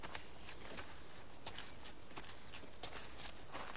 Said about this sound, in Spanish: Camina por el sendero hacia la puerta